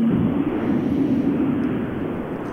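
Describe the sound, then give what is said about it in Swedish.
A rally car passing on a rally stage, a steady, loud engine roar that holds and then eases slightly toward the end, heard alone without talk. “där hörde vi ytterligare en bil passera”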